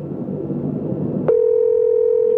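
Telephone line tone heard while placing a call: after about a second of broad, noisy hiss, a steady, clean, mid-pitched tone starts abruptly and holds unchanged and fairly loud to the end.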